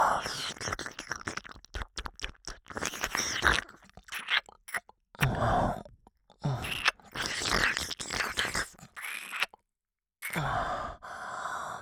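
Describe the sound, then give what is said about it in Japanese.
Wet licking and nibbling on a person's ear: many irregular smacks, slurps and soft bites mixed with breathy sighs. They come in close bursts, broken by a few short silences. “先輩の耳、おいしい。もっと味わいたい。”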